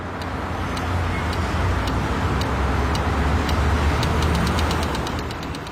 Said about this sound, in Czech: Já si myslím, že je to, jak tiká semafor, když čekáme, takže to. A jak to souvisí s tím tématem nevědomí? No, ono to ťuká, když ti nevědomí vlastně, aby věděli, kdy mají přejít, tak ono to potom začne tikat rychleji.